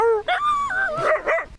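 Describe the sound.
Dogs at a dog park yip and whimper in a few loud, high-pitched, tonal cries in quick succession, with a drawn-out whine between them and no talk.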